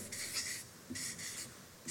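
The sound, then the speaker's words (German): Something being written down: a few soft, scratchy strokes in short bursts with pauses between them, faint and with no talk. “Und darum schreibe ich das einmal da hin, weil das ganz, ganz wichtig ist.”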